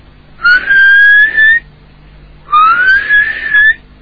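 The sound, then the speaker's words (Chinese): Mouth whistling by an old Taoist nun as she climbs up out of a tunnel: two short whistled phrases, each gliding upward then holding a bright, steady tone, separated by a clear pause. “老道姑爬上来了，嘴里打着口哨”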